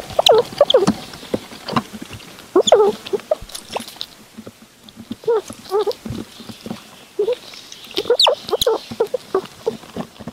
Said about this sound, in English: It's a zoologist that put a microphone in front of a seven-week-old baby red squirrel to record her cute sounds. This is what a little baby red squirrel sounds like.